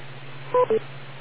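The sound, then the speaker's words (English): Two short electronic timing beeps on an amateur radio net, crisp tone bursts in quick succession over a low, steady hum. “wait for the beep and look at your watch”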